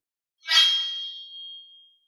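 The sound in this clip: A piercing metallic clang from a blade: one bright strike that keeps ringing as a sustained high tone, fading slowly over about a second and a half.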